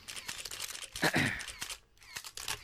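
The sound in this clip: Camera shutters clicking as photos are taken of a guest greeting an audience, several sharp, brief clicks scattered among rustling and soft noise.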